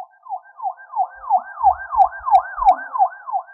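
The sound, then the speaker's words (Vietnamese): Police car siren yelping in rapid, regular rising and falling sweeps, steady and fairly loud, with a few soft low thumps underneath. “Đột nhiên tiếng xe cảnh sát vang lên, mọi người đều xoay đầu nhìn”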